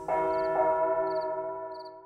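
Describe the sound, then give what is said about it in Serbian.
A church bell in a bell tower is struck once, ringing loud with a rich harmonic hum that slowly decays. “Zvonik. Zvuk se savija oko zvonika, čeka ga da odbroji 1, 2, 3, 7.”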